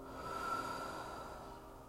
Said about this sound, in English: Let's breathe in positive. Let go of the negative.